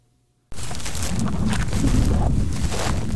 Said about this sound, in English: The wind is blowing across a 600-acre piece of land in Panwell, currently a ghost town in the Permian Basin of West Texas.